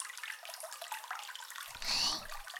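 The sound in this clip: Water rinsing a man's hair during a salon-style hair wash, a faint steady hiss that swells into a brief, louder splash near the end before settling back.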